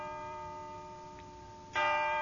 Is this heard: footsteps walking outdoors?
no